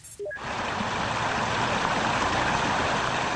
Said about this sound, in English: So that's the sound of cars being flooded on the roadway in North Bend, Washington.